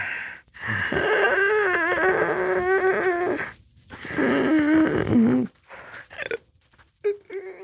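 A dog breathes heavily with wheezy, whining tones, in two long labored stretches followed by a few shorter bursts.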